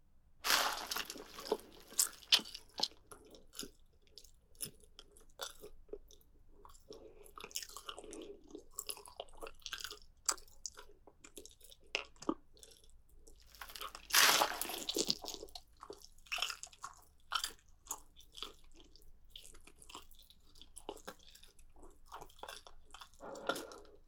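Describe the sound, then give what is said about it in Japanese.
Chewing and biting into a large piece of meat on the bone: irregular wet smacking and crunchy bites, loudest in a burst around the middle, with no talking. “大きい肉はそれだけで美味しそうに見えるし、実際美味しいね。”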